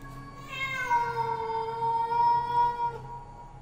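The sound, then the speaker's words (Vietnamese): A black cat gives an eerie audio-drama yowl: one drawn-out, wavering meow held for several seconds, clear and alone over faint background hiss. “Trước khi gieo mình ra ngoài, nó còn đứng đấy quay lại nhìn lão Tâm chằm chọc mà kêu lên mấy tiếng rợn cả người.”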